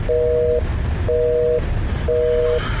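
Telephone line tone while a call is placed: three evenly spaced steady beeps of about half a second each over constant low rumbling background noise.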